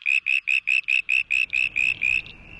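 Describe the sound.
A frog's high, squeaky call, shifted higher to carry over city traffic noise, sounds as ten rapid, evenly spaced bright pulses in a regular rhythm, loud and alone.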